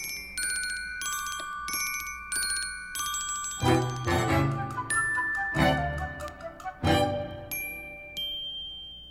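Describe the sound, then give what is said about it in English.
A medley of telephone bells plays from a 1976 Bell System centennial vinyl record: many rapid metallic trills and rings of varying pitch, giving way to a handful of sharper single dings and a lingering high ring at the end. “that comes to us from vinyl, the phone medley from the 100th anniversary of the Bell System back in 1976.”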